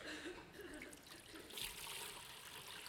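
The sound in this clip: Water is poured into a container, giving a faint, continuous trickling splash that runs steadily for about three seconds without a break.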